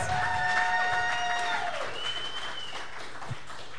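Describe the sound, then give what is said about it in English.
A live audience applauding, a soft wash of continuous clapping that eases slightly in level toward the end. “Live audience, give yourselves another... Please, give yourselves a hand.”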